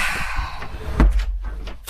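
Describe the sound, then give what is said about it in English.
A door being shut: one dull low thud near the middle, over a faint steady background hiss. “Come on, shut the door.”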